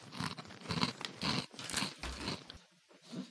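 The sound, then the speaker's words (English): Close, crunchy chewing of Asiago cheddar Nature Box crackers, several crisp crunching bursts in uneven rhythm, fairly faint, with no talking. “Oh, these are bigger than I thought they'd be. Oh, I thought they'd be Cheez-Its. Yeah. Oh, okay. Just got one in my mouth. I can taste the Asiago for sure.”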